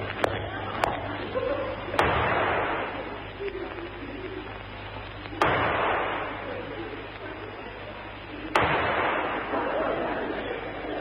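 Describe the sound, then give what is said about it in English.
Pistol shots in a duel, several sharp cracks spaced irregularly among talking voices. “Take this pistol! I warn you, I never miss. Nor I. One shot, Moriarty, they call me. Now back to back, three paces, and then we fire at you.”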